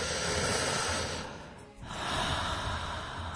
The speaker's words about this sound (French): est-ce que vous pouvez inspirer ensemble?